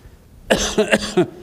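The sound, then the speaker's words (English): A person coughing during a sermon: a quick fit of a few harsh, raspy bursts in close succession, fairly loud with nothing else around it. “You might pray for me concerning that cough.”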